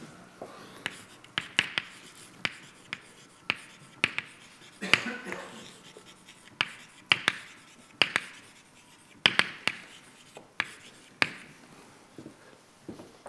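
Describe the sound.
Chalk taps and scratches on a blackboard as equations are written out during a physics lecture, making many sharp, irregular clicks with brief scraping strokes between them.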